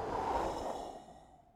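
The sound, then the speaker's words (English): A voice imitates the Holy Spirit breathing: a single long, airy exhale that stays steady and then fades out gradually. “The Scriptures are Holy Spirit breathed. So some prophet, some guy had a quill in his hand and the Holy Spirit came in and went,”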